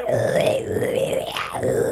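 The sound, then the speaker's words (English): A voice imitates the churning, gurgling of a man's stomach heard with an ear pressed to it: a continuous, low, groaning warble lasting about two seconds with wavering pitch. “I put my ear on his stomach and all I heard was like”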